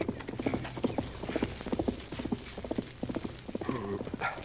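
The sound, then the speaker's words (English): Horse hoofbeats clip-clop along a trail leading past a cove into town, a radio drama effect heard as a steady, brisk rhythm of many hollow hoof strikes, fairly quiet and without voices. “heard hoofbeats on the trail that led past the cove into town. Someone's riding along the trail to town, Tonto.”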